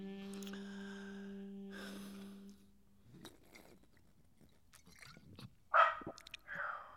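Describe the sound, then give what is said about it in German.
Dog barking in a theatre setting: a couple of short, sharp barks stand out in the second half, following a steady low tone and a quieter stretch. “Es ist verboten, im Theater zu bellen.”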